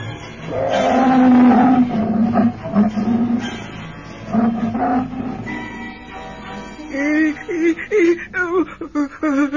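A tiger roars in several long, loud, rumbling bursts with deep throaty growls between them, the roars rising and swelling then breaking off.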